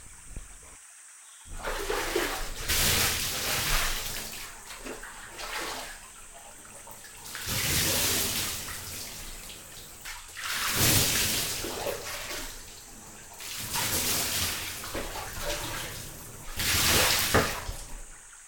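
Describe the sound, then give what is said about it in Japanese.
Hot water poured to rinse someone off during a bath wash: several splashing pours, each a broad rushing gush, separated by short quieter lulls, with no talk. “それじゃお湯流しますね。”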